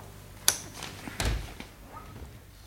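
A safe being opened: a sharp metallic click, then a heavier thud of the door, followed by a few softer clicks and knocks, all fairly faint.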